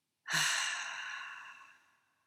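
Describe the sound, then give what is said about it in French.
Breath exhaled together in a guided breathing exercise: a single soft, airy rush that starts abruptly, then thins and fades away over about two seconds, with no talking. “On commence par inspirer. Et puis, on expire ensemble maintenant.”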